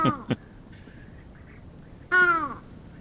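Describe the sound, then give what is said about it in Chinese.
A bird call that is hoarse, like a crow with a cold: after two brief clicks and a quiet stretch, one loud, rasping call with a downward-bending pitch. “它的声音呢就没有那么的有观赏性、哦、被形容为像沙哑感冒的乌鸦它的叫声，我们来听听看”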